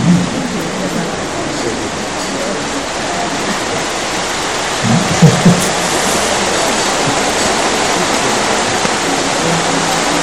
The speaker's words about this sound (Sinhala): දැන් වහිනවා කියලා දැනගත්තට හරි ඔළුව හරවලා බලන්න.